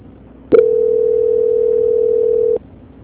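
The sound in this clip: A telephone tone plays during a call transfer, a steady, mid-pitched hum lasting about two seconds. It begins with a sharp click and cuts off abruptly, with no talking over it.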